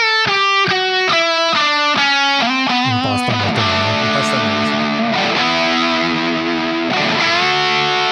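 Electric guitar played through a distortion pedal, starting with a run of evenly picked notes that step downward in pitch. It then settles into thick, buzzing sustained chords that are loud and saturated throughout.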